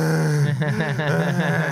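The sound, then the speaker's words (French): A voice imitates heavy, groaning breathing, mimicking a seven-year-old boy arriving on a stage before 3000 people; a sustained low voiced tone breaks into rapid, wavering voiced pulses, loud and alone. “Puis en arrivant sur scène, il a commencé à respirer en faisant.”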